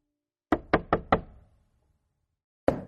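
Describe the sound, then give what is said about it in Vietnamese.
Knocking on a door: four quick, sharp raps in a steady rhythm, then a pause and one more single knock. “Ba tiếng gõ cửa vang lên.”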